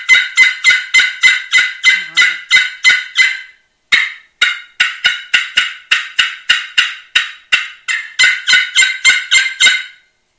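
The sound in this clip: A hunter blows a turkey locator call loudly, producing rapid, harsh, honking gobble-like notes in quick series with one brief pause partway through. The call is shrill, piercing and heard alone.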